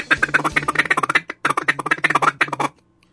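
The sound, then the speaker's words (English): A feeding chuckle is blown on a duck call in championship calling style: rapid, rolling clucks in two fast runs split by a short pause. It is loud and alone, fading out at the end. “Everybody thinks of a feeding chuckle as being something that you hear on the stage at Stuttgart for championship duck calling, like this.”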